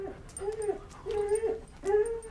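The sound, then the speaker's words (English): Labrador dogs whimper in a few thin, high-pitched whines that bend and slide in pitch, fairly soft and repeated with short gaps. “Not afraid of Labradors, are you? Oh, I love dogs, sir.”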